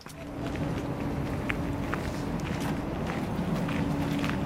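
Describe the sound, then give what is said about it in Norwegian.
Quick footsteps of people walking fast on their way to an e-scooter near Blindern campus, a steady stream of brisk steps heard continuously throughout. “Okay, vi kan ikke løpe, men vi går veldig raskt.”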